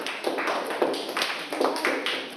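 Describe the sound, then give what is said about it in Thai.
Classroom applause for a group of pupils, a few light, separate claps in a loose rhythm, fairly faint and short. “ปรบมือให้กับกลุ่มที่1หน่อยค่ะ”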